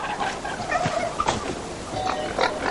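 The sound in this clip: Pigs grunting and oinking as they feed on acorns under holm oaks, with many short, overlapping snorts forming a continuous, fairly loud rooting chatter.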